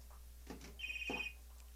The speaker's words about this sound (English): Oh, we're having a caller.